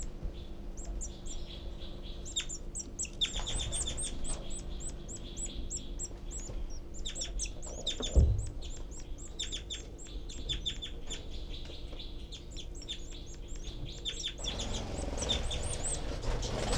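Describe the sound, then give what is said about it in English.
Baby birds loudly beg in the nest with many rapid, high-pitched chirps in dense, overlapping bursts that continue throughout, broken once near the middle by a brief low thump. “I can see the babies and hear them begging. Their heads are poking way high out in the nest. Loud begging by the babies”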